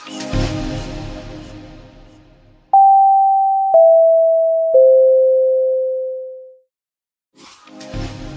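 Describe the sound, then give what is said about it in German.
Three long electronic beep tones from a supermarket bakery oven in a Lidl store, signalling that fresh-baked goods are ready. Each steady tone steps lower in pitch than the last, and the final one fades out. Faint background noise comes before and after. “das ist ein ganz berühmtes Geräusch bei Lidl und zwar hört man das bei nahezu jedem Filialbesuch und zwar ist das unser Ofen, der signalisiert,”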